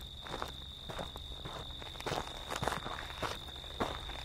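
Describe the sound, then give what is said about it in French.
Footsteps walking along a street land in a steady, even rhythm of many soft, faint scuffing steps, with a quiet background hum running beneath them. “Alors, on se relève pour marcher normalement dans la rue et s'éloigner le plus loin de la prison.”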